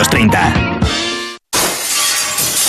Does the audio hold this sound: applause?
no